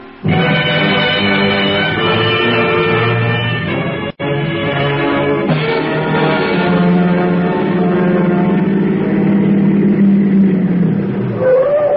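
A 1959 Fishtail Special car pulls up, its engine giving a loud, steady mid-pitched drone with layered harmonic tones. The drone drops out for a moment partway through, then resumes and holds to the end.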